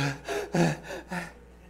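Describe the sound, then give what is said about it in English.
Heavy breathing of a hiker who has just climbed a mountain: several loud, breathy gasps in a quick, even rhythm, then the breathing fades to quiet. “But the video had audio on it, and the audio was him breathing heavily for having just hiked up the mountain.”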